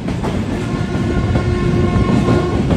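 A train rumbles along continuously with a rhythmic clickety-clack of wheels on the rails. The roar is loud and dense and stays steady throughout, with no voices.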